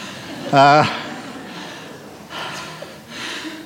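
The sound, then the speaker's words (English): Someone breathes heavily after running and jumping: one sharp voiced gasp comes first, then a few slower, rasping breaths as they try to recover. “Sorry if I embarrassed you, but I just get excited on these occasions, and now I'm out of breath.”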